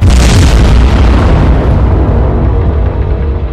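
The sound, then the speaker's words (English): The 18-inch guns of the battleship Yamato fire in a deep, loud blast that opens with a sharp crack and rolls into a heavy low rumble, slowly fading across a few seconds. “And to his left looms the colossal Leviathan herself, Yamato, with her 18-inch guns thundering,”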